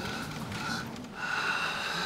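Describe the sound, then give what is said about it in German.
A deep breath in and out by a patient during a medical exam, a steady, airy rush that dips briefly midway and then swells slightly louder. “Einmal tief ein- und ausatmen.”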